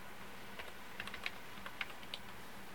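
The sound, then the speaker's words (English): Keystrokes on a computer keyboard as a single word is typed: several sparse, light clicks in an uneven rhythm, fairly faint, with no talk. “I'll type in the word that I do know how to pronounce.”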